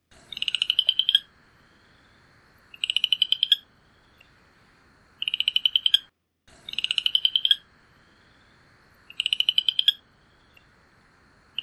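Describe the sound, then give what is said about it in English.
A small frog calls in a series of high, pulsed trills, each lasting about a second and repeating every couple of seconds with short quiet gaps between them. “There's a frog call here.”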